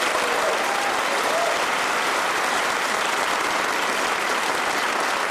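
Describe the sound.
A studio audience at a panel show applauds to welcome the panel team, a dense, steady wash of clapping that stays loud and even throughout with no voices over it.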